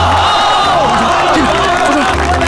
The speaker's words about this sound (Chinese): 同志们，英雄来了，咱们热烈欢迎啊！